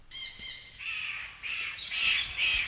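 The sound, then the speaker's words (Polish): Birds in a zoo aviary in Wrocław give harsh, crow-like cawing calls: a short series of loud, raspy repeated calls with brief gaps between them. “ptaszarni wrocławskiego zoo pozdrawiają miłych słuchaczy nowe nabytki tego ogrodu.”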